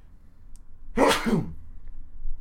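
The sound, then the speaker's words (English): One loud, sudden human sneeze bursts out alone against a quiet background. “another sneeze is coming.”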